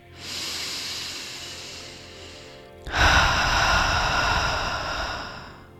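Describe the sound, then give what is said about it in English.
Slow, deep breathing: two long, steady breaths of soft airy noise separated by a brief pause, each lasting well over two seconds, with the second slightly louder and fuller. No other sounds. “So we're going to do them in counts of four, inhaling in for four, exhaling out for four.”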